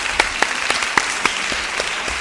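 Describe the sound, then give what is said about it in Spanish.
Applause for a young man on a talk programme: a short, dense stretch of clapping with several crisp individual claps popping out at a fairly regular pace over the steady patter, and no voices. “Un aplauso para el chaval.”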